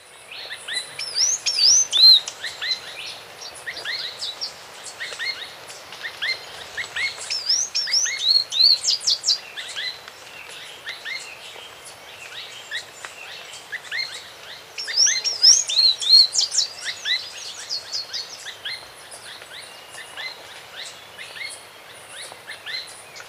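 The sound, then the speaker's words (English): Song of a tricolored brush finch: many quick, high chirping phrases repeat throughout, with louder bursts at intervals, over a steady thin insect trill. “tri-colored brush finch.”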